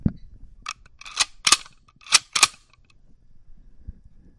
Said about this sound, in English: Now, I'm holding this Ruger 96-44 in my hands. Listen to the lever action.